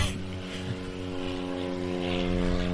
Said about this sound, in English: Sorry for the plane going overhead. We're really close to the airport.